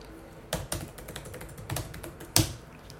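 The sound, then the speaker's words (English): Fingers type on a computer keyboard in a short, irregular run of crisp clicks, with one sharper keystroke near the end and no talking. “Argentina under 23 As I actually just typed.”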